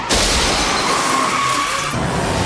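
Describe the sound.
A car collision as drunk occupants flee a police cruiser, with a passenger's arm nearly crushed. A sudden loud impact opens a sustained noisy crunch and rumble, with a faint thin whine running through it.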